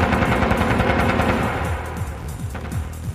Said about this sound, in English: The lead thug turns and sprays bullets at Natasha.